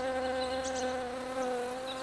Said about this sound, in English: A bee flies towards Max and his smoothie.